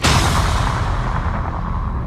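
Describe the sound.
Cannon blast from a circus human cannonball act: a loud, sustained booming roar that stays heavy throughout and fades only slightly toward the end.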